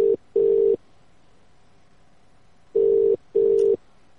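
Electronic telephone line tone after a call is hung up: two short steady beeps, a long gap of silence, then two more identical beeps, with no other sound.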